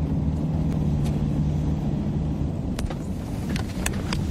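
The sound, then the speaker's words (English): A car pulling over by the roadside in Kirua, Kenya: a steady, loud low engine rumble with a few faint clicks and ticks near the end. “So we've just pulled over by the side of the road in Kirua, just round the corner from Priska's village.”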